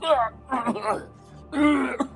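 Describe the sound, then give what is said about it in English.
A voice imitates a character hacking and coughing, three rough, raspy vocal bursts separated by short pauses, each a strained throaty rasp. “He just starts hacking and coughing.”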